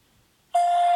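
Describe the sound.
A voicemail beep before a message is recorded: silence, then a single steady electronic tone that starts about halfway through and holds to the end.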